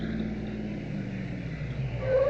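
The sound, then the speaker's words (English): Car engines outside, a radio drama sound effect for cars arriving. A low, steady rumble swells a little toward the end, with no voices. “Those cars outside. Yes. I've been expecting them.”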